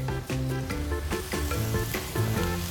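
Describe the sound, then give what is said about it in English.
Food sautéing in a pan, giving off a continuous crackling sizzle with small pops that stays steady and fairly loud, without any talk. “So we're going to let this saute up. Get a little bit more cooked.”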